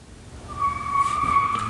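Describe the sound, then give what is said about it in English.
Car tires skidding in one sustained, high-pitched squeal lasting over a second, rising out of a low road rumble, with no talk. “We just heard somebody go off on their tires there.”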